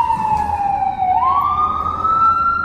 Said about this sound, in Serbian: a fucking sirena. Kad mi uđe ova sirena ovako u mozak, a, sad moram da trpim ono narednih